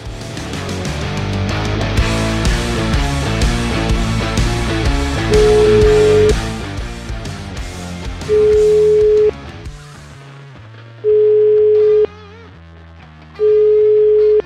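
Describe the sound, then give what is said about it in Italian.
Telephone ringback tone heard while calling someone back: four steady, low-pitched beeps, each about a second long with gaps between, following loud music that fades to a quieter bed beneath the tones. “che facciamo, richiamiamo? Vabbè, una volta, dai, proviamo a richiamare una volta, dai.”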